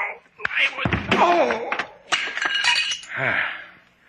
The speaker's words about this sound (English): Why did you hit him over the head with the doll?